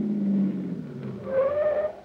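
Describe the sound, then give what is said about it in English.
A car sound effect for a taxi pulling up and stopping in an old-time radio comedy: a steady low engine drone that gives way to a higher tire or brake squeal as the car halts. “Driver, pull up that little white cottage there behind that car that just rolled away.”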